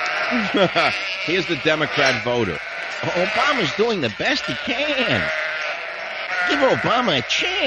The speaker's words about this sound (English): you have all the sheep with their bells blanging. Oh, guys, do we have like the sheeple sound?